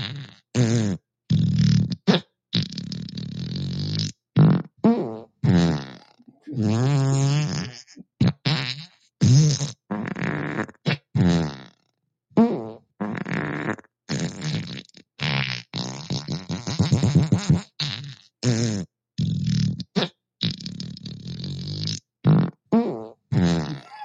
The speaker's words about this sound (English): Alexa, fart 40 times. Here comes a serving of 40 farts.